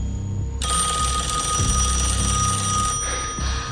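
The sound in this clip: A telephone rings with a bright, buzzing electronic trill: one long ring, a short gap, then the start of a second ring, over low background noise with no talking.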